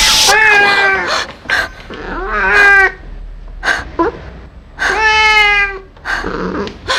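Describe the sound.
A cat meowing softly: three drawn-out, clear tonal meows about a second each, with a slight downward glide in pitch, separated by brief pauses with small clicks.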